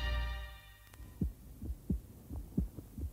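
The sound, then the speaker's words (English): A human heartbeat thumps in a steady rhythm of deep, low beats, following a fading low hum at the start. “Every day, your heart pumps about 2,000 gallons of blood round your body. A tough, efficient machine.”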